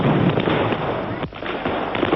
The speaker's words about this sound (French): Voici la fusillade qui éclate. Des hommes se sont arrêtés juste face à la tribune du président Sadat et sont en train de tirer d'abord une grenade et ensuite des armes automatiques.